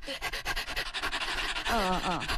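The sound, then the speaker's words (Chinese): A person imitates a dog panting open-mouthed on a hot day with many rapid, rhythmic breathy huffs in and out that grow slightly more voiced toward the end. “这个小狗呢，它在天特别热的时候， 就这样， 它呼吸喘气嘛，它也闲着呀，它会把嘴张开是吧， 舌头，”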